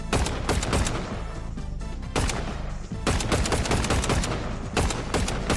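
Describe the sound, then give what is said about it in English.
Rapid gunfire in a video game fight, many loud, sharp cracking shots in quick bursts with brief gaps between them. “See if I can jump up, shoot his little toes right here.”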